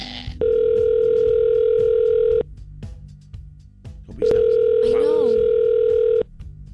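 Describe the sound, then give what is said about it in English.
Telephone ringback tone as a call is placed to a snow plow company in Iowa: two long, steady buzzing rings separated by a pause, with a voice briefly audible during the second ring. “A friend of mine gave me this number, a snow plow company, so let's dial them up”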